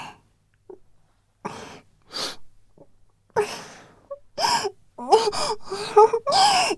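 Tearful crying with joy, heard as a few shaky gasping breaths and sniffles that build into louder, trembling sobs and whimpering wails toward the end, with no words.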